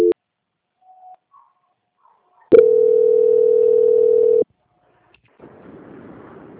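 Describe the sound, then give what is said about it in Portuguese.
During a call transfer, a telephone line gives a click and then a single steady, mid-pitched tone lasting about two seconds. The line falls quiet, and faint hiss follows. “peço que aguarde em linha que vou transferir o contato com o controle de qualidade”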